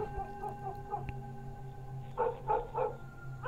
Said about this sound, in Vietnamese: Thậm chí văng vẳng từ trong làng có tiếng chó cắn ma cứ ông ổng sủa đến.